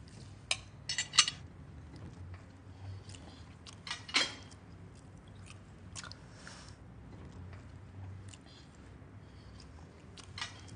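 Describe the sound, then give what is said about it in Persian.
Macaroni being eaten with a fork: a few sharp, quiet clinks of the fork against a dish and soft chewing, spread unevenly across a mostly hushed stretch. “ببین ماکارونی رو اینطوری میخورم. ببین با چنگال.”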